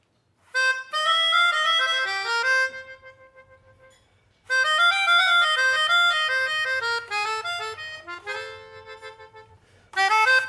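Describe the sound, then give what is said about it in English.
A melodica plays bright reedy chords and melodic lines in three phrases separated by short pauses. The notes are sustained and clear, with a faint low hum underneath. “Are people here familiar with a melodica sound and playing or not really?”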